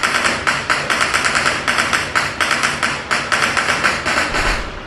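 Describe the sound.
Gunfire attributed to the Taliban, played back from a recording: rapid, evenly spaced sharp cracks in several short bursts separated by brief gaps, fairly loud, with no talk.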